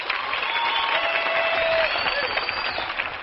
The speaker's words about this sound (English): So let's have a good old-fashioned hand pat and welcome for our good friends, the Carter Sisters and Mother Maybell.